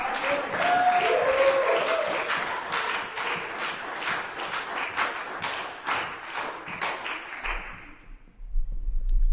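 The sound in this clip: Audience applause at a poetry reading as a poet is welcomed to the stage: dense, sustained clapping from many hands that carries steadily, then dies away near the end.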